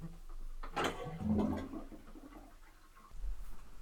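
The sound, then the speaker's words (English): A bathtub draining, with a faint, low gurgling swirl that swells briefly into a burst of bubbling before settling back to a quiet, rumbling trickle, heard alone. “Can I drain the tub now? Go for it.”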